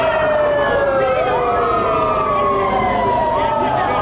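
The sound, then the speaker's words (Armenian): Police car sirens blare outside a government building during a protest. Several overlapping wailing tones glide up and down, loud and unbroken. “Ոստիկանական մեքենաների ազդանշանները միացնելով փորձեցին խլացնել Բագրատ արքեպիսկոպոս Գալստանյանի ձայնը”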